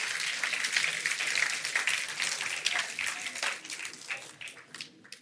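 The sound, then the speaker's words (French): An audience applauds for all the dads, a fairly faint, dense patter of many hands that holds steady and then thins out toward the end. “Est-ce qu'on peut applaudir tous les papas qui font de leur mieux quand même?”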